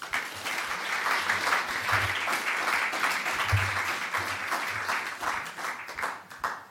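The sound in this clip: Audience applause welcoming speakers at Oslo's House of Literature: sustained, dense clapping from a crowd that holds steady and tapers off at the end.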